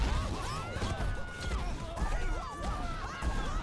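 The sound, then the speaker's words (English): Castle defenses shooting in a Voltron cartoon: rapid, overlapping zaps with sweeping pitch, mixed with crashing impacts, a dense and continuous barrage. “Because I need to run a diagnostic test on all of the castle's defenses. This should help. So I'm just going to shoot at you.”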